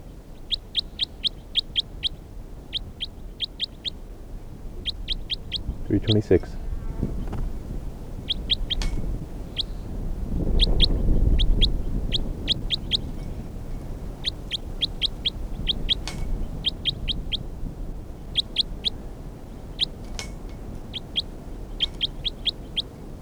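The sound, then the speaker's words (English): Bird calls in many short, high chirps grouped into quick clusters of a few notes each, repeating in a steady rhythm throughout, with a low rumbling background that swells in the middle. “This is bird 326.”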